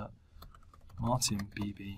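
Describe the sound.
Fingers type a login password on a computer keyboard, a quick run of several soft, clicking keystrokes that grows a little louder midway.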